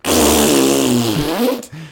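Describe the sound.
A voice imitates a fart on a toilet with a loud, buzzy raspberry whose low pitch wobbles and dips over about a second and a half, followed by a short second buzz.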